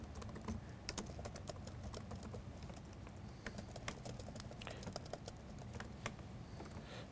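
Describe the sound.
A name being typed on a computer keyboard produces many quick, irregular key clicks in a steady patter. The clicks are faint and go on for several seconds.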